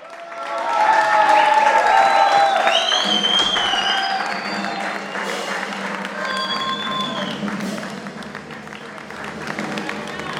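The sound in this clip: Concert audience applauding and cheering at the close of the show: dense clapping swells quickly, stays loud for a few seconds, then eases to a steady level with scattered shouts through the rest.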